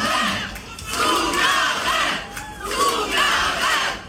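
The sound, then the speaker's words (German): A German concert crowd chants loudly in unison for an encore, the shouting rising and falling in repeated rhythmic swells. “Erst das, wovon jeder Künstler träumt, Zugabe, Zugabe, kaum geht sie einen Schritt zurück auf der Bühne, wird's ruhig.”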